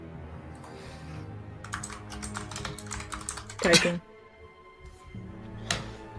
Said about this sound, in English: Typing. I type.